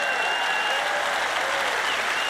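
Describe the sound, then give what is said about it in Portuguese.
Audience applause for an assistant during a talk: a continuous, dense patter of many hands clapping at a steady level throughout the short stretch, with no talk over it. “Quero que eles aplaudam você pela ajuda preciosa que você tem dado.”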